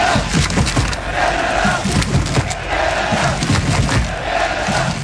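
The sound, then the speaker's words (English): Thousands of Canadian football fans dressed in red and white chant as they march into BC Place for a World Cup match. The dense crowd noise stays loud throughout, with repeated chanted phrases and scattered thumps. “Sound of thousands of Canadians decked out in red and white marching into BC Place earlier this afternoon for Canada's second World Cup match.”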